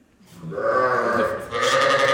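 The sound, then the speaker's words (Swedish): Sheep bleat on a farm in Ånge, Sweden: a sustained, wavering bleating with rich harmonic tone that rises in loudness and carries on to the end, with no talk over it. “fåren bräker här på Strömmens gård”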